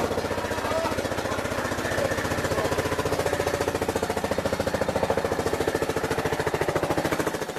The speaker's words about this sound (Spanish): Es el día de la molienda y nos recibe el sonido de un trapiche impulsado con motor que reemplazó desde hace un poco más de un año el trapiche de bueyes